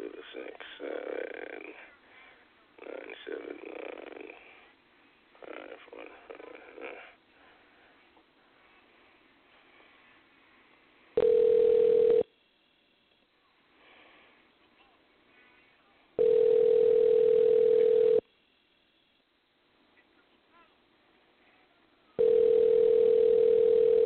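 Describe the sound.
An outgoing telephone call rings out: three long, steady, single-pitched ringback tones separated by stretches of near silence, after a few seconds of muffled, narrowband talk over the line.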